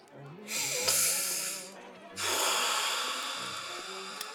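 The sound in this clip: Heavy, ragged breathing from a distressed person: two long, loud, harsh breaths, each a rushing, airy exhale or gasp, separated by a brief pause.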